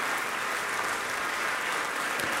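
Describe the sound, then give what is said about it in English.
Appreciative audience applauding a pianist at the end of a piano recital in Bennett Gordon Hall at the Ravinia Festival. The clapping is dense, continuous and fairly soft, holding at an even level throughout. “again acknowledging the applause of an appreciative audience”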